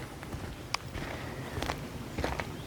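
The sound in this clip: Faint footsteps as someone walks on, a few soft, irregular steps over a steady background hiss.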